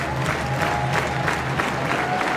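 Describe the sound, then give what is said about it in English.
A baseball crowd cheers and claps to encourage the pitcher during a tense two-out at-bat. The clapping and crowd noise form a continuous, even wash with no single voice standing out. “And a crowd that has gotten into it early, trying to cheer on the pitcher, Martin.”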